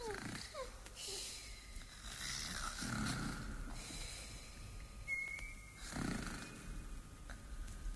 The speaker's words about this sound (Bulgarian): Както хъркаха, изчезнаха и двете.